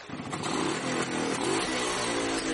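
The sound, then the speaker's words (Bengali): A motorcycle engine roars as the bike pulls away during a film shoot, a loud, dense and steady growl that holds without a break for the whole clip. “গো করে গর্জন করে একটা ধাক্কা দিয়ে bike ছুটতে শুরু করলো।”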